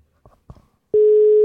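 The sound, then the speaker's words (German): A telephone ringing tone after a call is dialed: two soft clicks, then a loud, steady, pure mid-pitched tone that holds unbroken to the end. “So, also, ich drücke mal auf Wählen.”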